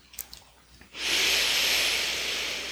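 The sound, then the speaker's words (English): Breath sounds during a guided breathing exercise: a few faint breaths give way to a long, loud, steady airy exhale that carries on without a break and eases off slightly toward the end. “Squeezing it all out. Medium to full in breath. And natural exhale.”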